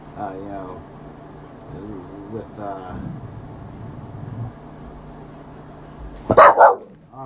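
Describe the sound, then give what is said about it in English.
A dog barks, with a short, loud burst of barks near the end after a long, quieter stretch of low vocal sounds and background noise. “sorry, don't mind the dog. But with the dog seems concerned about something.”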